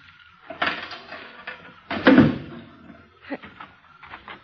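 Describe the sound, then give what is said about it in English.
A car trunk holding tools and a spare tire is opened: a clunk from the lock, then a louder thump as the lid comes up, followed by softer knocks and rattles. “take this flashlight and hold it on the trunk lock while I open it. You're going to open the trunk? Naturally.”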